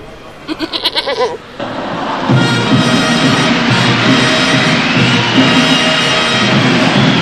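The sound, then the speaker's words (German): A billy goat bleats in one quick, wavering burst of rapid pulses. A loud, sustained crowd roar then takes over and continues to the end. “So meckert oft der Bock der Geiße”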